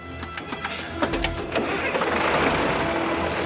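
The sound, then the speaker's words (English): A digger's engine is started from the cab. A run of quick clicks and cranking turns into a loud, steady mechanical rumble that holds to the end. “Valentine climbs up into the cab of the digger and tries the engine.”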